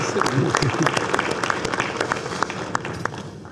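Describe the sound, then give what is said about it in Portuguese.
An audience applauds after a session, with dense, steady clapping and a voice talking over it. “Então eu queria agradecer de público, dando salva de palma a vocês todos.”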